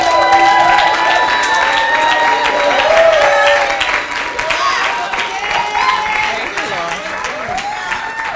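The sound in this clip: A church audience applauding and cheering to welcome a woman speaker coming up to preach: loud, sustained clapping mixed with shouts and raised voices, easing off slightly after about four seconds.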